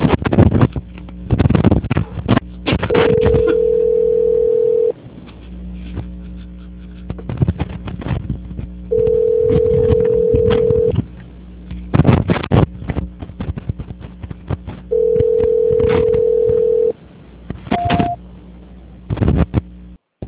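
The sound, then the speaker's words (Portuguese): A telephone line tone sounds while a call is being transferred: three long, steady beeps of about two seconds each, evenly spaced, then a brief higher beep near the end, over clattering background noise. “A ligação ficará muda por alguns instantes, se não desligue, por gentileza. Tire a senhora uma excelente tarde, só por favor, eu vou transferir a sua ligação. Tá ok, obrigada. Só um minutinho, por favor. Transferência.”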